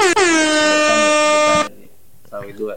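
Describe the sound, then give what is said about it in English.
Air horn sound effect, one long, loud, bright blast lasting about a second and a half that cuts off abruptly, followed by a quieter stretch. “Hold on, let me throw some air horns.”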